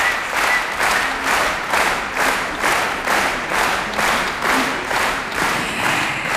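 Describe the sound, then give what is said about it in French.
Steady, rhythmic applause from a concert audience at the Aix-en-Provence Easter Festival, with claps swelling in regular pulses about twice a second, loud and sustained throughout without any talk. “Provence où nous avons installé nos micros ce soir pour vous faire profiter sur Radio Classique de l'effervescence qui règne ici à Aix dans le cadre du Festival de Pâques et visiblement vous pouvez l'entendre à travers nos micros, le public est conquis.”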